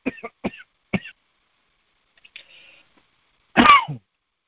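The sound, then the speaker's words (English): Throat clearing from a tickle in the throat: three short, sharp clears in quick succession, a faint rasp, then one louder, longer rasping clear. “Bad time to get a tickle in your throat.”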